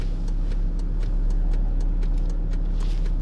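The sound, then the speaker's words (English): A car drives along the road on the way to work, a loud, constant engine and road drone with no change in pitch. “I'm driving to work right now and”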